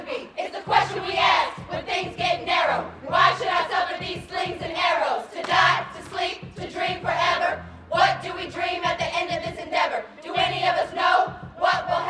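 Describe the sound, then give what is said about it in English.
A crowd of more than 200 incarcerated women packing into a prison gymnasium, heard as loud, continuous cheering and shouting from many voices that surge and fall in waves. “more than 200 incarcerated women are packing into a gymnasium. They're dressed in baggy, khaki-colored clothes.”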